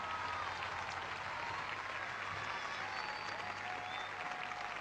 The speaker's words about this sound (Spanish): ¡Fuerte el aplauso!